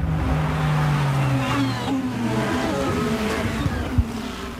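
A Formula 1 racing car engine revving high during a race, a loud, whining drone with shifting tones over continuous engine noise.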